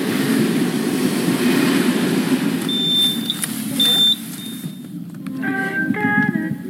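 Railway station ambience at La Souterraine: a steady, loud rumble of trains runs throughout, with a few thin high beeps midway and a short series of tones near the end.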